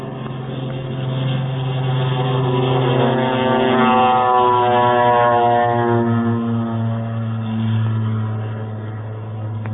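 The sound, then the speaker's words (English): A plane in a flight formation roars down the runway on takeoff. A loud, steady engine drone with a strong humming tone swells in the middle and eases slightly toward the end, with no voices. “Now Clark of Kentucky is taking his flight down the runway.”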